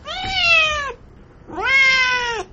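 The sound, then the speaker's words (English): A pet cat meows twice, each a loud, drawn-out meow rich in harmonics, separated by a short pause, with no other sounds. “that was my cat just saying hi.”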